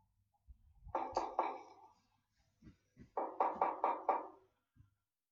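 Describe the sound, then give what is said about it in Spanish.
Knocking on the grandmother's door in a children's fairy-tale radio story: a short pair of raps, a pause, then a quicker run of about five firm knocks. Soft low thumps are scattered between the groups. “Al rato, Caperucita llamó a la puerta.”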